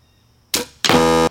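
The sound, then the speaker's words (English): A shot is fired at a target: a sharp burst, then after a short gap a sustained buzzing, tonal ring that holds for about half a second before cutting off. “I haven't shot this for a long time, so I don't know how it shoots, how high, how low. This is the first shot for both of us.”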